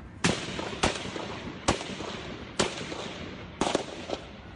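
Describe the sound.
Rifle gunshots at a suburban ballpark in Alexandria, Virginia, captured on a cell phone: several sharp, loud cracks spaced roughly a second apart, the last ones bunched closer together, over a steady hiss of background noise.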